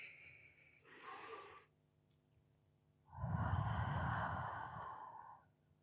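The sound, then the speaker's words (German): A slow, deep breath is drawn in softly through the nose, followed after a pause by a long, fuller exhale out through the mouth, quiet and unhurried. “Nimm ein paar tiefe Atemzüge. Ein durch die Nase und aus durch den Mund. Ganz, ganz langsam.”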